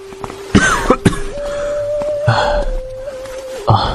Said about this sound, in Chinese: 梅长苏就用衣袖掩口咳得弓下了身子